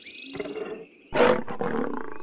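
A lion roars in a told story: after a faint tonal passage, a loud, rough, low roar bursts out and carries on for about a second.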